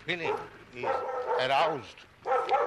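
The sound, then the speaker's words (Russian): A dog barks and yelps in a neighbouring yard, a few wavering, tonal cries rising and falling in pitch in close succession. “О, еще одна собака. Вот еще одна собака идет из соседнего двора.”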